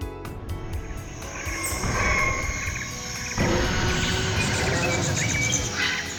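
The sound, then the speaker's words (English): Tyrannosaurus rex roar sound effect: a long, harsh, rasping bellow with a rough grainy texture, swelling louder in two surges and sustaining to the end. “Whoa! Do you know what that sound was? That's right, a T-Rex, which is short for Tyrannosaurus Rex”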